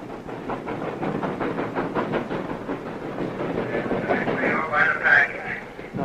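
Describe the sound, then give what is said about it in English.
A steam locomotive runs with a steady, rhythmic chuffing and rattling clatter that stays fairly loud throughout. A brighter burst of sound rises briefly near the end. “The steam locomotive is something that you can't find anywhere else.”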